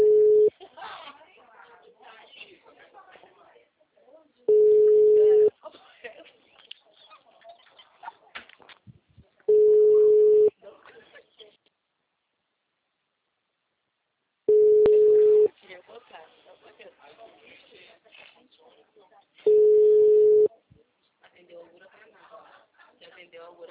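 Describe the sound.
Telephone ringback tone while placing a call: five steady low beeps, each about a second long and spaced roughly five seconds apart, with people talking between them.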